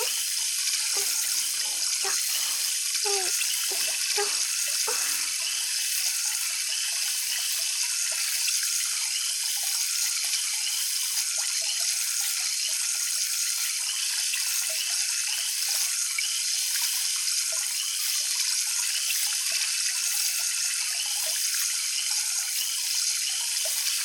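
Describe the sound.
Tap water runs steadily while rinsing, making a continuous even hiss for the whole clip, with a few brief louder splashes near the start.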